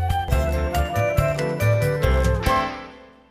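A bright chime signals a child to turn the page of a picture book: a short sequence of several ringing, bell-like tones struck one after another, then a smooth decay into silence.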